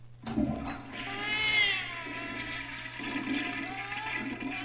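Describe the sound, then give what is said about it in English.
A toilet flushes in one loud, sustained rush of swirling, gurgling water that carries on with a wavering, whining tone for about four and a half seconds, with no talking. “I'm going to flush myself down the toilet and come meet you.”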